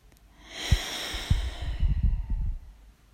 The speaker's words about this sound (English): So you're breathing in to your vortex and you're connecting with the energy in your crown. So breathe that in now.